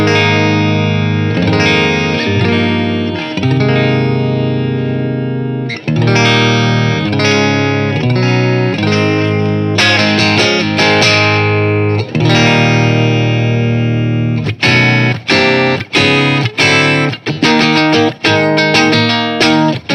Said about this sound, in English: So let's dive into the sounds of this guitar